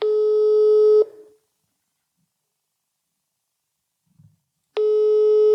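Telephone ringback tone on an outgoing call: a steady, buzzing tone sounds for about a second, then a long silence follows before the same tone returns and runs to the end.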